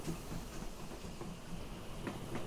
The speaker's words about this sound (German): Die Dampflok wartet auf dem Nebengleis. Von Radebeul bei Dresden geht es mit der Schmalspurbahn ins Hinterland.